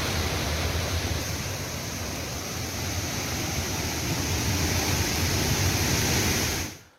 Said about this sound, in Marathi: धबधबा ओसंडून वाहू लागलेला आहे